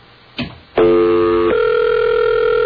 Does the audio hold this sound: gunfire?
no